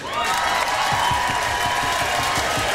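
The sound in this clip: An audience claps together in steady, dense applause that starts after a brief hush and stays at an even, moderate level to the end.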